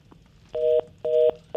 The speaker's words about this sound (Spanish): bueno, lamentablemente se, se, cortó la llamada.